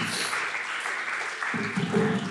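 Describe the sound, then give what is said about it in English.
An audience claps at a church worship gathering, giving brief, steady clapping that holds at a moderate level, with a voice speaking over it toward the end. “You can give him a little clap.”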